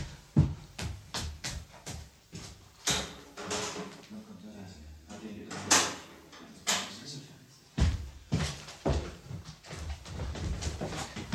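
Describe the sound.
A door is opened as Stepan arrives in a German radio play, with a series of clattering thumps, knocks and shuffling footsteps at irregular intervals.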